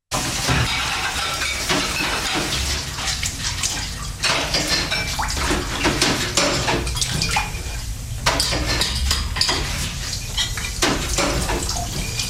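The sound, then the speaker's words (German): Washing up dishes: steady running and splashing water with scattered clinks and knocks throughout. It is fairly loud, with no voices. “Sie finden Abwaschen langweilig? Also hören Sie mal.”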